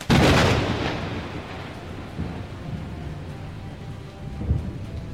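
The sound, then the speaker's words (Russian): Heavy rain downpour with thunder: a loud thunderclap opens and rolls away into a steady, dense hiss of rain, and a lower rumble swells again near the end. “На его счастье, ливень прекратился так же неожиданно, как и начался.”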